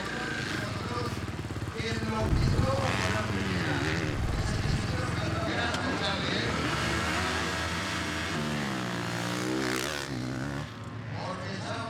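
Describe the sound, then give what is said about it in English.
Racing motorcycle engine running, a steady low rumble heard under continuous talk. “Honestly, sounds really good, mate. Also with the noise, because now the bike should be quieter, so you also get that feeling.”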